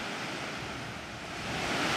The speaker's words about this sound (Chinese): 所以这个是喀斯特地区呢也会有的，地下河流出来，然后呢再掉下这个谷地变成瀑布。